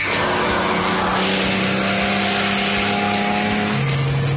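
Steady engine drone of a TR6 sports car being driven, loud and unbroken, with a sustained engine tone that steps down in pitch near the end.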